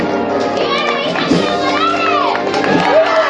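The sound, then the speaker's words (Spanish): Crowd noise rises around costaleros carrying a float through Plaza San Ildefonso during a Holy Thursday procession in Jaén, with a steady wash of mixed voices, shouts and children's cries. “Y entre viva y aplauso se anima eh, a ese cuerpo de costalero en el trabajo.”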